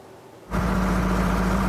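Diesel engine of irrigation pumps in a potato field in Fiumicino, on the coast near Rome, kicks in after a brief quiet moment, then holds a loud, steady low drone with a constant hum and no voices.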